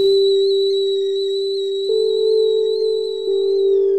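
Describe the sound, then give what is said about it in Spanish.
A kettle whistles as its water boils at home: one sustained, piercing tone that holds for the whole stretch. It steps up in loudness twice partway through, and no voices are heard. “silba la pava y me avisa algo más que su hervor.”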